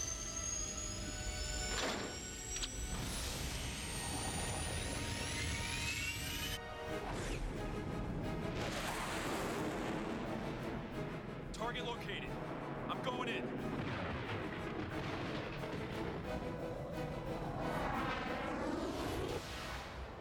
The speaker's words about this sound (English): Engaging rockets. Hope the thing's working better than it did last time.